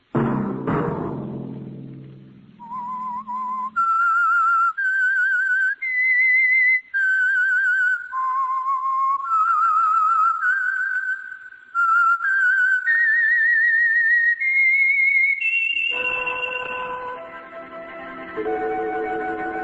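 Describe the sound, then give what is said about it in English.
A lone whistled tune, clear and sustained, moving through a slow series of held notes that climb gradually higher, with no voices. “Let that whistle be your signal for the Signal Oil program, The Whistler, each Sunday night at this same time.”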